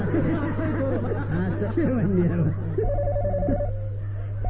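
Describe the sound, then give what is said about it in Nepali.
Telephone ringing with a rapid warbling, pulsed tone that begins partway through. Voices chatter before and under it, over a steady low hum. “ल तपाईँ phone आयो”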